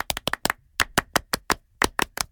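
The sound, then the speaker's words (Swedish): Rhythmic group applause in a French style, with many sharp, loud claps struck in tight, regular clusters and short pauses between the groups. “Vi kan ge Fredrik en stor fransk applåd. Det tycker jag. Un, deux, trois.”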